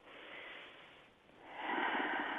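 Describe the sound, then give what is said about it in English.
A deep breath taken during a guided centering exercise: two long, airy breath sounds with no talk, the second noticeably louder and rougher than the first, separated by a brief lull. “And just take a deep breath.”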